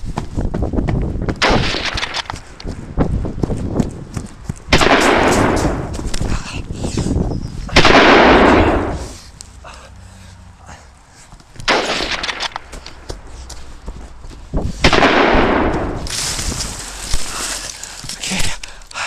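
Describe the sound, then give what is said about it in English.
Video game gunfire aimed at the player: many loud, booming shots and bursts of fire in an irregular rhythm, some long rumbling volleys and sharp single cracks, with brief lulls between. “They're firing at me. They're firing bullets at me.”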